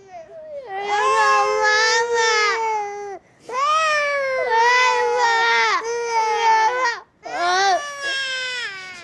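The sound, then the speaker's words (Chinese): A child cries loudly in three long, high-pitched wailing bursts, each separated by a brief catch of breath. “你别哭。行了，不哭了。”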